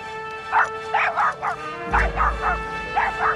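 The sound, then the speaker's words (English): Sharp, high yips and barks from a dachshund straining at its leash on a lawn, fired off in a quick, uneven series of short bursts with no one talking. “Approaching the lawn, the dachshund plants its paws on the grass and strains at its leash.”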